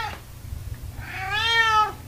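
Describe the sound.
A cat gives one drawn-out, tonal meow that swells in loudness and then tails off, after a brief faint noise and a quiet pause.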